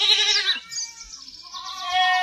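Sheep bleat in a flock: a few high, wavering, nasal bleats in quick succession, loud and alone without talk.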